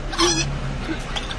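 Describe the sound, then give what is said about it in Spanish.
Hen clucking, a chicken heard in a few short, rough clucks over steady low background noise. “Mira la gallinita esa, ¿Cuál? ¡Ojo, mira por el pollo!”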